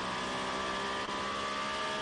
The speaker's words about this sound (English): Peugeot Toyota battle going on at the Varianda Alta, the very top of the circuit there.